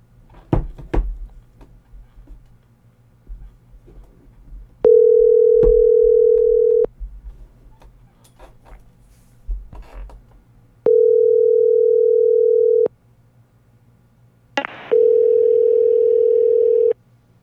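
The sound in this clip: A telephone dial tone sounds while a call is being placed: three steady, loud, mid-pitched tones of about two seconds each, separated by silent gaps, with a few clicks and thumps at the start.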